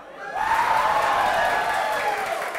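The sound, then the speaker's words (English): Cheering and applause from an audience at a live show in Adelaide. A dense, sustained roar swells in after a brief quieter start, with whoops and whistle-like shouts riding on top throughout. “Everyone, welcome to the show. Make some noise for yourselves.”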